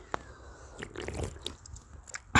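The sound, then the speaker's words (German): Wet slurping and swallowing from someone drinking a can of Red Bull energy drink: a run of soft mouth clicks and gulps, ending in a short, louder rushing burst. “gönnt euch, wie ich Red Bull trinke.”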